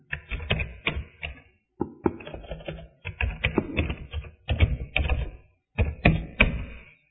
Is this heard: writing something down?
yes